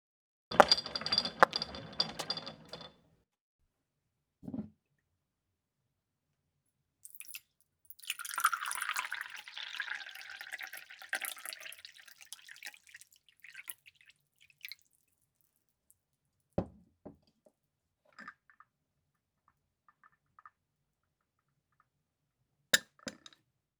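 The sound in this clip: Tea being prepared and poured: a clatter of clinks and small taps, a lone click, then a longer stretch of splashing liquid, followed by scattered faint clinks and drips, with no voices.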